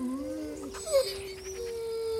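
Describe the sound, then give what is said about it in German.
A dog whimpers and whines, begging to be let into the house, with thin, faint, wavering tonal cries that slide slightly and repeat with short pauses. “Hinke Lotta winselt und bettelt. Sie will ins Haus.”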